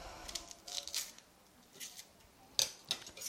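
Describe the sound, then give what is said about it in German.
A knife cuts through an onion in a few faint, irregular crisp taps and slicing strokes, alone without voices. “Schneiden tun wir sie. Ihr könnt ein bisschen langsamer machen, wenn ihr wollt. Ich kann gar nicht langsamer Zwiebel schneiden.”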